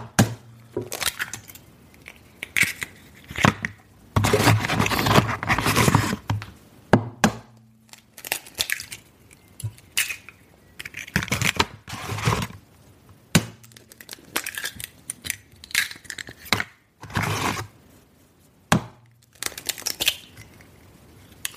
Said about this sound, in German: die Eier schlage ich jetzt hintereinander alle auf. In einer Schüssel.